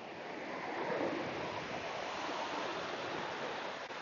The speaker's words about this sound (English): hope you can hear the waves in the background. It's quite magnificent.